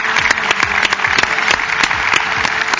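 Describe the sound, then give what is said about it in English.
Audience applause welcoming performers portraying Israelites traipsing through the desert: dense, steady clapping that stays fairly loud and unbroken from start to finish. “Let's give the Israelites traipsing through the desert a hand of welcome here, okay? Let's welcome these guys.”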